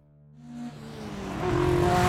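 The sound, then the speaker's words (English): A Mercedes car speeding through the darkness, its engine roar climbing steadily in loudness and pitch as it accelerates, with no voices. “My Mercedes sped east through the darkness. I clutched the wheel, staring through the windshield with lantern eyes.”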